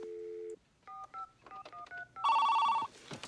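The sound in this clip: Telephone dialed for a call: a steady low dial tone, then a quick run of short two-note keypad beeps, followed by a longer, louder pulsing higher tone and a brief burst of noise, with no talk.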